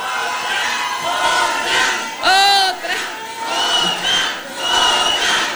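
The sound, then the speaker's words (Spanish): A concert audience cheers and shouts loudly and without a break, and a brief shrill cry rises above the crowd midway. “así que un aplauso para ustedes”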